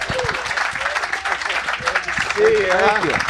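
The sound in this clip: Applause and cheering from an audience welcoming a band's frontman onto the stage at the Hope and Anchor. The dense, steady clapping runs throughout, and a voice whoops loudly near the end.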